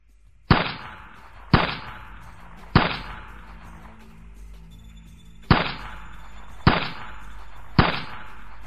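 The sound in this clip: Gunshots fired at a shooting range: six loud, sharp single cracks, each ringing briefly as it decays, in two groups of three separated by a quiet pause.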